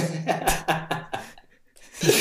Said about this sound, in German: So einen schlimmen Husten?